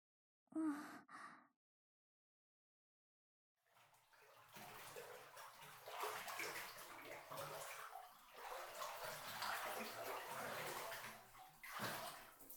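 Bath water sloshes in a filled bathtub with continuous splashing and swishing in uneven swells. It starts after a silent pause and follows a short breathy sigh.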